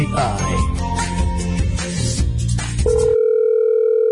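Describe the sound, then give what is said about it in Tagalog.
A telephone tone on a call that goes unanswered. Busy music gives way to a steady, unbroken mid-pitched tone that holds loud and level to the end. “Why are you not picking up my phone?”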